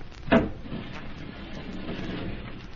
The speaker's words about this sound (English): How do you open the panel, Amira? This lever.